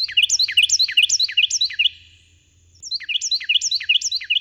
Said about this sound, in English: To see some photos of those shrill Carolina wrens singing their hearts out